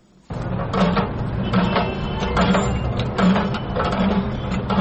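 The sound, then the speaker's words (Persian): A water pump in Kabul that has run dry because the water table dropped starts abruptly. It keeps up a loud, steady mechanical drone with regularly repeating clunks. “این صدای بمبه آب است که 2 سال قبل آب داشت، اما حالا به خاطر پایین آمدن سطح آب، آب آن خشک شده است.”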